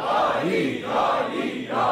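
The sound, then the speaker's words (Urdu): A crowd shouts the Naara-e-Haidari religious slogan in unison. Loud massed voices swell and dip in a few broad waves. “علی کے ہاتھ کی ایک ضربت ایک ضربت ایک ضربت۔ نعرہ حیدری”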